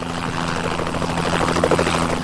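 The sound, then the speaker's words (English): Helicopter in a video game level: a steady, low, throbbing rotor whir with a constant pitch and even loudness, heard alone without voices. “And here's a chopper. There's a helicopter.”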